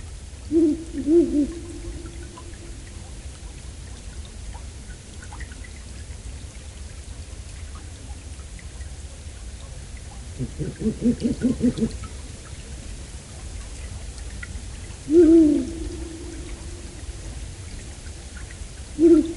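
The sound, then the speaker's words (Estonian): A pair of Ural owls calls excitedly near their nest, giving low hoots in a few short bursts separated by long quiet gaps, over a steady background hiss like falling rain. “kuulame Händkaku paari erutatud kahekõnet pesapaiga läheduses”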